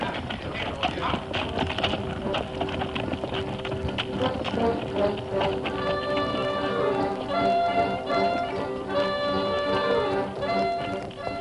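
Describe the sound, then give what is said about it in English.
Hoofbeats of a cavalry troop's horses ridden into a mountain pass form a fairly faint, steady clatter of many hooves throughout, with sustained tones joining in the second half. “The troop rode into Glory Pass, each man on the alert, studying the wooded slopes on either side.”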